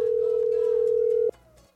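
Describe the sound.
A telephone dial tone sounds as one steady, mid-pitched hum held for over a second. It then cuts off abruptly, leaving only faint background noise.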